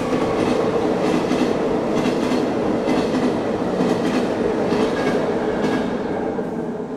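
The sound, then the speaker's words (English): A train passes by a window in Pisa, Italy, with a loud, steady rumble and a rhythmic clickety-clack of wheels on rails running continuously throughout, with no voices. “You might hear the train going by her window.”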